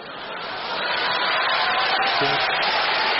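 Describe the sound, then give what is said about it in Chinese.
Audience applause at a Chinese crosstalk performance swells in over the first second, then holds as a steady, bright patter of many clapping hands, with a brief voice under it. “观众热烈鼓掌，啪啪啪， 你们就鼓三下是吗？这掌声， 这是鼓掌的声吗？”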